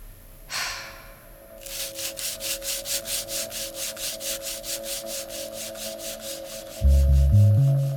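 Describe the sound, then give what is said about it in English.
Rust is scraped off metal in many steady, rhythmic back-and-forth strokes, each a gritty rasp of even strength, after a single harsher scrape at the start. “You scrape. Scrape what? The rust. But it's all rust. Then you scrape all of it.”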